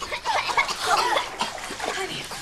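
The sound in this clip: Water splashes and sloshes as a person is pulled up out of a bathtub, a short burst of watery splashing mixed with vocal sounds.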